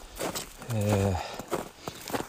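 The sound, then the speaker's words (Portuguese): Boots crunch on snow while hiking up Mount San Jacinto. A few uneven, crisp footfalls are spaced apart, with a brief voiced hum in between. “Esse é o som da neve. Tô andando, subindo pro Monte São Jacinto.”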